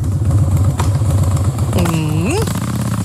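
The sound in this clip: Harley-Davidson motorcycle engine at the Harley Days event in Dresden, idling with a loud, lumpy low rumble of rapid, steady pulses that runs throughout.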